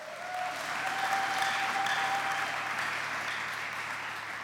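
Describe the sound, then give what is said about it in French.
Congregation at a bilingual English and French church service applauding, a steady, even wash of many hands clapping together that holds at a moderate level throughout. “Put your hands together. Acclamons pour le Seigneur.”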